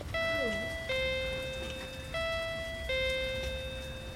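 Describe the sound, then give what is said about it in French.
An electronic doorbell at a nursery door chimes a falling two-note pattern twice, with sustained, clear tones over faint background noise. “On est devant la porte de la crèche. D'accord. On avance. On doit sonner.”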